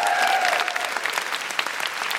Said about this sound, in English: Big round of applause for Helena.